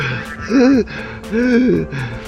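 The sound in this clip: A voice imitating a person gasping and struggling for breath, two strained, drawn-out vocal heaves whose pitch rises then falls, with a short pause between them.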